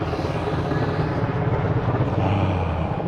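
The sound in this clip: A helicopter passes overhead with a steady, dense whooshing rumble of rotor and engine noise that holds at an even, fairly loud level throughout, with no voices.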